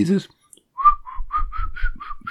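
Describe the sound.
A person whistles a classical melody as a quick string of clear, short notes at a fairly steady pitch, with a brief voice just before.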